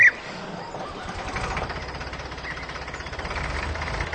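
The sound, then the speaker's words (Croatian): A tractor engine running with a steady, low, chugging rumble and a faint knocking pulse, unchanged throughout. “Naja, der Traktor.”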